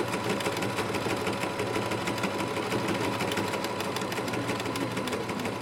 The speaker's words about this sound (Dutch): In de buurtontmoetingsplek, de Bob, komen mensen bij elkaar voor een praatje, voor koffie of thee en voor een naailes. En dan is praten een stuk lastiger over het geratel van de machines.